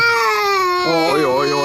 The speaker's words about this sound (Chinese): 这是哭啊！ 你什么哄也不行。